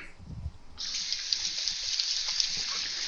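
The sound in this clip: Tap water rinses a halved vegetable with its seeds and stem removed: a steady, moderately loud hiss of running water that starts just under a second in, after a brief low rumble of handling.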